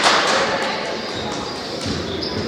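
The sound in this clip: Basketball dribbled on the court during a women's high school game: a few dull bounces under continuous crowd noise, with a voice talking over it.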